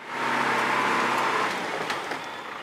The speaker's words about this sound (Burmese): အဲ့ဒီအောက်မှာပဲကားတွေအများကြီးပဲ